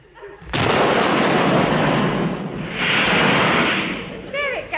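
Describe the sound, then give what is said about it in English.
A rocket ship launching after its fuse is lit on the deck: a sudden, loud, roaring blast bursts in and sustains, swelling once more before easing off, with a voice briefly heard at the very end. “This is my rocket ship. See, I will demonstrate its power to you. I stand on the deck and light the rocket fuse so.”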